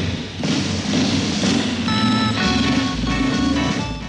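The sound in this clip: A motorcycle engine drones steadily as the rider circles a wall of death in a stunt demonstration, with a loud, sustained low hum and a few thudding pulses throughout.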